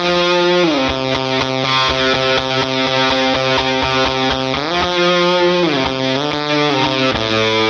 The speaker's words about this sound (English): So this is kind of just like it's just a gated fuzzy sound, you know?